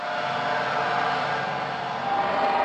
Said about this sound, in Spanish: Con una fuerte potencia, la nave despegó hacia el espacio exterior.